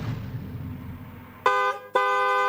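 Two car horn blasts, a short one then a longer one, sound on a road after a stretch of low rumbling traffic noise; each honk is a loud, steady, buzzy tone with no change in pitch.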